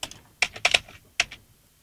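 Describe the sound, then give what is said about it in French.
Computer clicking comes as a few sharp, quick keypress-like clicks in short clustered bursts with brief silent gaps between them. “Pour l'instant, alors attends, bouge pas, je clique.”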